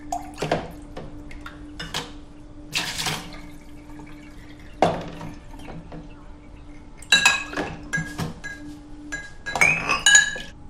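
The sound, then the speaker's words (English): Washing up dishes in a bowl at the sink: scattered clinks of glass and cutlery, bursts of splashing water and irregular clattering, with quiet gaps between the louder knocks. “Later, she stands at the sink doing the washing up in a bowl.”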